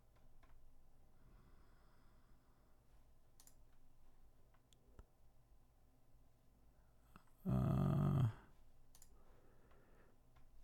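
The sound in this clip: A misbehaving computer keyboard gives faint, sparse clicks over a low steady hum. A loud, rough buzzing burst cuts in for under a second.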